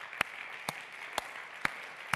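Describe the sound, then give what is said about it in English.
Church audience clapping hands in praise: five sharp claps struck together in a steady rhythm about half a second apart, over a faint hissy background. “could you give the Lord a hand clap of praise in this place?”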